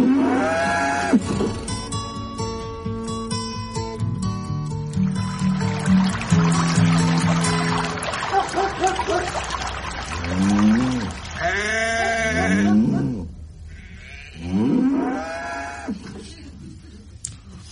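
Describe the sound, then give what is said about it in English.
Farm animals call out, with bleating sheep and deep mooing cattle heard in a few loud, drawn-out cries one after another. “And then more running water. Yes. And then more animals.”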